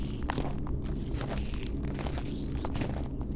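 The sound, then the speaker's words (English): Slow, cautious footsteps near a ledge: a series of soft, gritty treads, spaced unevenly, over a steady low rumble. “Take it slow. Okay. Take a few steps. Careful now.”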